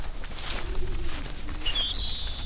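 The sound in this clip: Cape Sable Sparrow singing in the Everglades, a few thin, high-pitched notes in the latter half, faint over a low, rumbling background.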